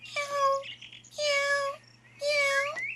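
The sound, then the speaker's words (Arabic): Cat meowing three times. Each drawn-out, clearly tonal meow lasts about half a second and is separated by short pauses. The meows are fairly loud and stand alone. “مرحبا يا قطة. ماذا تفعلين هنا؟”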